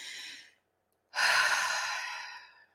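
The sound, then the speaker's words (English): Deep cleansing breaths: the airy tail of one breath trails off, then after a short silence a long, breathy exhale swells and slowly fades. The breathing is heard alone, without talk. “You can move your body. You can take some deep cleansing breaths.”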